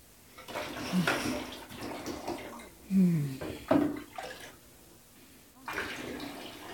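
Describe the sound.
Water rinsing someone off in a bathtub: quiet, irregular swishes, splashes and trickles rising and falling, with a couple of brief voice sounds in between.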